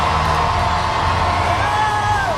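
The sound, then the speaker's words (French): A street crowd of around 300,000 people in Paris cheers and roars in a dense, continuous wash of voices, with whoops and shouts rising over the steady din for the whole stretch. “il passera devant cette foule en délire qui avoisine les 300 000 personnes dans les rues de Paris.”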